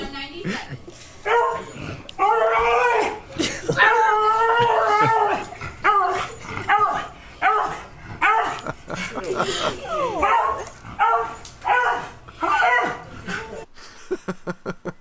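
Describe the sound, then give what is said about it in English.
A pug dog barks, yips and whimpers in a long run of short, pitched, wavering calls with brief gaps between them. “Okay, I'll be quiet now. That's the dog.”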